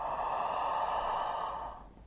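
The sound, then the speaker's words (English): A breath is drawn in through the mouth during a guided breathing exercise, a soft, airy rush lasting about two seconds before it tapers off. It is quiet and heard alone. “Inhale through your mouth this time.”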